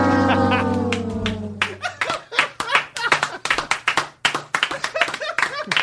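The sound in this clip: Applause from a small group: many crisp, separate hand claps in an uneven patter, following a brief voice at the start.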